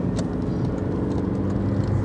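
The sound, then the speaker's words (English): Car engine droning while overtaking a very slow van, a low steady hum with road noise underneath and no clear change in pitch over the short stretch. “Excuse me, I'm doing an overtake that I probably shouldn't. There we go.”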